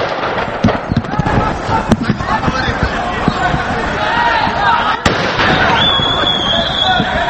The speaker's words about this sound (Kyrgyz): Ызгычуу тополоң башталганда милиция кызматкерлери атайын куралдардан ата башташты.